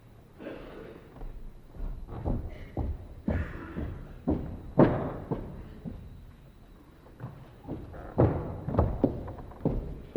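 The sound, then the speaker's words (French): A door is closed during a stage play, heard as a scattered series of dull thuds and knocks. Several heavier bumps stand out among the faint shuffling impacts, with no talk. “Allez, clore cette porte.”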